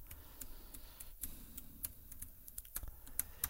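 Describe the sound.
Fast typing on a computer keyboard while writing an email: many quiet, irregular key clicks in a steady patter, with a few slightly sharper taps.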